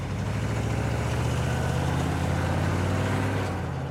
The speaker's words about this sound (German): Plötzlich gibt der Fahrer Gas und jagt davon.